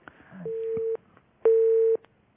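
Telephone line tones on a call from Algeria that has been cut off: two steady beeps of about half a second each, the second louder than the first, with quiet line noise around them.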